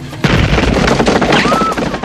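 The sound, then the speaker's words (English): Gunfire with bullets ripping up through an attic floor: a rapid, loud burst of shots that starts abruptly and continues densely to the end. “In the attic, Jack jumps as the bullets rip through the floor.”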